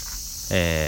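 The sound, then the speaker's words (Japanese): Cicadas singing in a neighborhood park in summer: a steady high-pitched buzz throughout, joined halfway by a louder, lower buzzing drone with a rich, ringing tone. “息子にせがまれて、近所の公園に来ております。えらいセミが鳴いていますわね。夏ですよね。”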